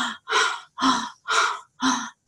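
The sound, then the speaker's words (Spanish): Deep breathing through an open mouth during a guided breathing exercise. Loud, breathy inhales and exhales repeat in a steady rhythm, separated by short silent gaps, with no speech. “Y exhala con la boca abierta, inhala y exhala para ir al subconsciente rápidamente.”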